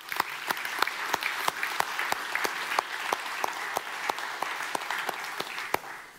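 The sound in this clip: A church audience at a Christmas family service claps to welcome a speaker. The applause is steady and rhythmic, with sharp claps falling in an even beat throughout.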